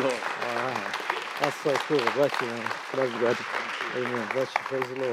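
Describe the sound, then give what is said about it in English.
Audience applause greets a visiting minister at a Sunday night church service: a steady, moderately loud patter of clapping runs beneath a man who keeps speaking short, excited exclamations throughout. “Put your hands together.”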